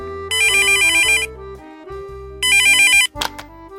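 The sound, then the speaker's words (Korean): An electronic telephone ringtone plays in two loud bursts of bright warbling tones, separated by a pause of just over a second. “파리에 있는 약혼자 찰리로부터 사랑하는 여자가 생겼다는 전화를 받고 말았다”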